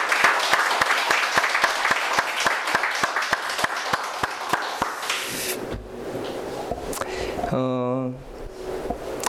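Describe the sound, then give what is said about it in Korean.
A church audience applauds to welcome a newcomer, with dense clapping at a steady, even rhythm for about five seconds. The clapping then thins out, and a brief voice follows. “우리 환영의 박수를 한번 하도록 하겠습니다”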